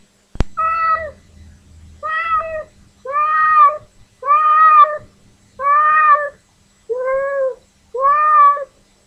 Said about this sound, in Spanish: Este es un gato que espera su comida.